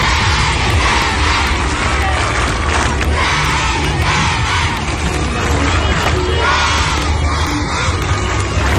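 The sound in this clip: Children at Leskovac primary school cheering and shouting a welcome: a loud, continuous crowd of high voices whooping and yelling together, sustained at a steady level throughout.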